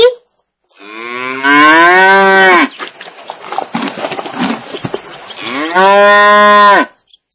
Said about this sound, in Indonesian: Ini sapi. Sapi.